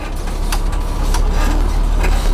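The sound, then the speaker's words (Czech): Heavy engine rumble of a Bushmaster armoured vehicle driving over 2.5-metre obstacles. A loud, steady low drone runs throughout, with a few brief knocks and clatters on top. “Řidič Bushmasteru Jakub Dobijáš právě překonává 2,5metrové překážky. Jakoby nic.”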